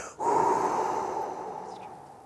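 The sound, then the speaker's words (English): A long, steady exhale of breath during a guided relaxation practice, one sustained breathy rush that starts abruptly, then slowly fades over about two seconds, heard alone without talk. “I exhale.”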